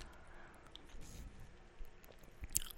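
Chewing on a pretzel with French's yellow mustard: soft, faint crunching and squishy bites that come in a few small bursts.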